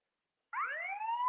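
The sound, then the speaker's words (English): An alarm siren starts abruptly after half a second of silence. Its wailing tone climbs steadily in pitch and holds at a clear, fairly strong level until it is cut off. “the alarm is sounding”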